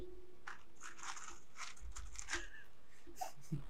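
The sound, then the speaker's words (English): Crunching of chips and everything bagel seasoning pretzel crisps being bitten and chewed, several faint, sharp, crackly bursts in an uneven rhythm over a quiet background, no talk. “We're having some hummus and chips and the everything bagel seasoning pretzel crisps. So should we do a little ASMR for them?”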